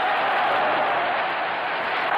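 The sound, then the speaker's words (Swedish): Cheering and applause from an audience inside a shop, a dense, steady wash of crowd noise that stays loud throughout with no clear single voices. “Och att han hade en publik med sig där inne också som jublade, det var en fin touch, tycker jag.”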